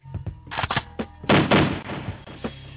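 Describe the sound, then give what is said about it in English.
Heavy double-barrel shotgun blasts in a video game, several booming bursts in quick succession with a thudding low end and rough, crackling decay. “I'm going to double shotgun that.”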